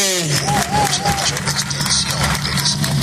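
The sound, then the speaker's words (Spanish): Loud crowd applause for the young organizers fills a gathering marking March 24. Constant clapping mixes with general crowd noise, and a few voices rise briefly above it. “Vamos a darle un fuerte aplauso a ellos”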